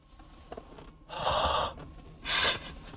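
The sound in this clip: A voice imitates breathing with two loud, breathy gasps, each lasting under a second and separated by a short pause, with no other talk.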